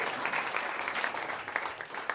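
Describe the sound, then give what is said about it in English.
An audience claps in praise at a worship service, a dense, continuous patter of applause that stays steady and moderately loud throughout. “Let's give the Lord a hand of praise. Hallelujah.”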